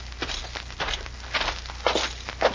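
Footsteps of a man walking into a sheriff's office: an uneven series of moderate steps with light scuffing, with no voices.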